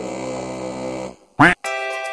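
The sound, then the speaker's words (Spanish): A duck quacks once at a pond: a short, loud, nasal burst set between steady, droning tonal sounds. “Todos los patos de la laguneta cantan siempre a coro, cuac, cuac, cuac, cuac.”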